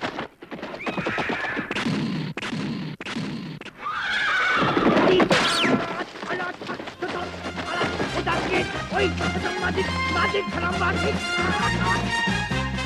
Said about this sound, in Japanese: 運悪く馬に乗ったダンベイおじさんがそこへやってきたんだ。